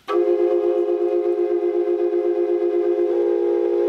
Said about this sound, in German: Das ist eine Quadrupelflöte. Eine Quadrupelflöte aus der Maya-Zeit.